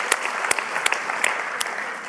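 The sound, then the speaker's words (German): Lively applause greets a boy after he is given a kippa at a religious gathering. Dense, steady clapping is studded with several sharper, louder claps, alone and fairly loud. “Ein Applaus für den Benni, komm.”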